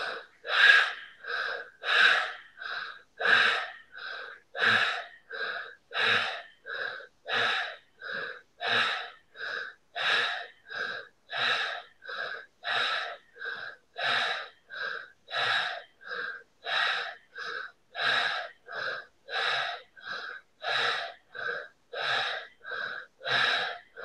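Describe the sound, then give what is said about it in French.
Bhastrika bellows breathing exercise: many rapid, forceful nasal breaths pumping in a steady, even rhythm, each a loud rushing puff of air, with no talking. “Vous relevez la tête et on va faire un bastrika.”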